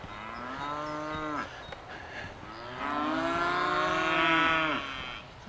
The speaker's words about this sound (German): Da oben sind so helle Rinder, das sind die, die hier so rumblöken.